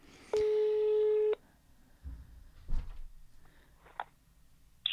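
A telephone line rings during an outgoing call: one steady electronic ring tone lasting about a second, followed by a few faint clicks and soft handling noises on the line.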